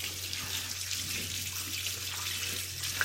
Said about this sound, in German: Dann habe ich hier jetzt eine Bio-Zitrone. Die spüle, spüle ich hier nochmal schnell heiß ab.